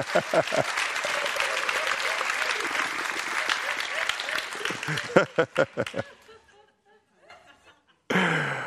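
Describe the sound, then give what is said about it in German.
Congregation applause at a worship service: loud, busy clapping mixed with some laughter, which thins into scattered claps and dies away to near quiet after about six seconds. “Gib mir mal Jesus einen Applaus.”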